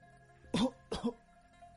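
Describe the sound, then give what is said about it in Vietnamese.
A sudden dry cough: two short, rough hacks in quick succession, fairly faint, over a low steady background hum. “Một tiếng ho khan thình lình vang lên, khiến cho nàng bừng tỉnh.”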